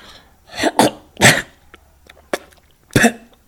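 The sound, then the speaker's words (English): Someone clears phlegm from the throat in a few harsh, wet, cough-like bursts. The bursts are loud and uneven, with quiet breathy gaps between them. “Feeling that the phlegm was collecting in my throat,”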